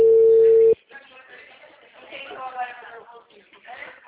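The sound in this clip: A steady, loud telephone ringback tone sounds while a phone call is being placed, then cuts off abruptly and a voice talks.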